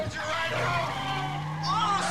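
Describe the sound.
A car with its tires skidding and squealing over a steady engine drone, a sustained tone climbing slowly in pitch as the squeal goes on.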